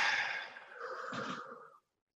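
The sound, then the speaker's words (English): One slow, deep breath is taken during a guided relaxation exercise. It is a soft, airy breath lasting under two seconds, quiet throughout, and then fades to silence. “And we're going to take three breaths. So breathe in, breathe out,”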